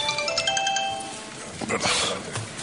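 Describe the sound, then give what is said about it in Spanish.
Mobile phone ringtone going off during a town council meeting: a bright electronic melody of sustained tones rings for about a second, then fades out beneath steady background noise and a few soft rustles. “Apagar el teléfono, de acuerdo.”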